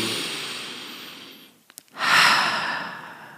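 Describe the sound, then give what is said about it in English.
A deep breath: a long breathy rush that slowly fades, a short pause with faint small clicks, then a second, louder and drawn-out rush of breath, alone. “Just take a deep breath there.”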